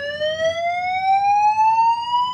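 An electronic alarm goes off alone, a loud, steady, piercing tone rich in harmonics that slowly rises in pitch throughout.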